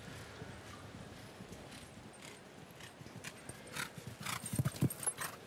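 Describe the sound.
Hoofbeats of a horse galloping around a show jumping course, a steady run of many quick strikes that grows louder near the end.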